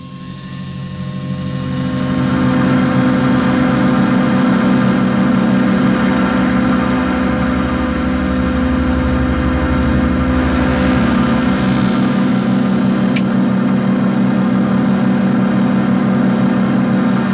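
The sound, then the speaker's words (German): A strange communication apparatus switches on and runs. A deep, loud droning hum swells over the first two seconds, then holds steady, with one brief sharp click late on. “Das ist eine Art Kommunikationsapparat. Völlig abgedreht. Okay, ja, hören wir uns das Ganze an. Jetzt schalten Sie ein.”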